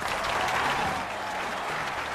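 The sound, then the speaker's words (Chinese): Applause from a crowd forms a dense, steady wash of many overlapping claps at an even loudness throughout, with no clear voices. “说到这儿得来点掌声。”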